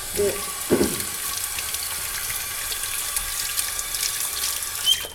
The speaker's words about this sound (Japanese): 新じゃがとか使っていただければ、うん、じゃあこんな感じで一回洗って